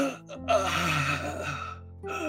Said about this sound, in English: she's breathing really heavily